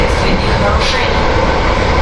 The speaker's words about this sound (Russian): Мы же в поезде на путях.